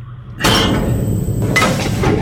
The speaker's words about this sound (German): Ja, dann öffne ich jetzt die Schleuse, ja?